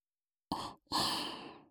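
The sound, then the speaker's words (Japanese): Soft breathy blowing into the ears: a short airy puff, a brief pause, then a longer, steady gentle exhale, quiet and alone. “お兄さんのお耳、いっぱい、ふうふうしちゃいますね”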